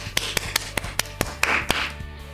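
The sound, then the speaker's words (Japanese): Loud hand clapping, heard as several sharp, separate claps at an irregular pace, with no talk over them. “拍手うるさいですね。”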